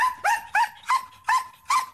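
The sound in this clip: A high-energy working dog trained for operational tasks barks six times in a quick, fairly even rhythm. The barks are loud, sharp and yelping, with a bright tone, and no one talks.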